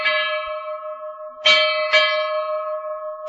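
A copper ship's bell is struck a few times in quick succession. Each clang opens into a long, sustained metallic ring that overlaps the next, and no voices are present.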